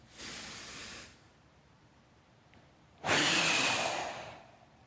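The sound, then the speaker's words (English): A person performing a deep breath, heard as two long, breathy rushes of air, the first softer, then a pause and a second, louder and fuller breath lasting over a second. “And God takes a deep breath and.”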